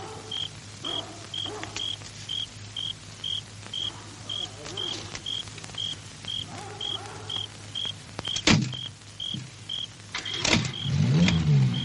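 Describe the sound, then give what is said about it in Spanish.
A car engine starts as people get into the car at the door of a chalet. A steady low hum runs beneath a regular series of short, high beeps. A few sharp knocks follow, then a louder rumbling surge near the end. “María y Daniel se montan en el coche en la puerta del chalet”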